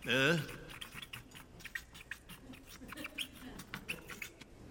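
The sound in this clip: Writing on a board: a brief high squeak at the start, then a string of short, faint scratchy marker strokes at an uneven rhythm.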